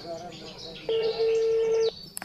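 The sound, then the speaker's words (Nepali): A telephone being dialed, heard as one steady electronic beep of about a second that breaks briefly and resumes at the same pitch, with faint clicks after it. “ल पख भन्दा भन्दै phone नै काटिहाल्यो, अब आफै phone गर्नु पर्यो।”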